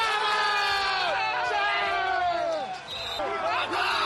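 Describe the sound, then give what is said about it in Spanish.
Barça players cheering in celebration after a comeback win, many raised male voices shouting and whooping together in a loud, continuous, overlapping burst. “Y así sonó la alegría de la plantilla del Barça.”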